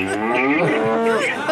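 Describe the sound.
A cow lowing in one drawn-out, steady moo with a rich harmonic tone that holds at an even loudness throughout.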